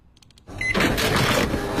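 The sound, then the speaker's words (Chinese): An office printer prints a university admission letter. It starts with a short soft mechanical sound, then rises into a loud, steady whirring rush for about a second. “北京语言大学工作人员现场打印出北京第一封普招录取通知书”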